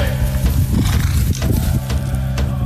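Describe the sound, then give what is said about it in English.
Horse sounds at a ranch where Indigenous kids ride, with a few short snorting or hoof-like bursts over a steady, humming tonal background. “Horses are the main event at DH Ranch.”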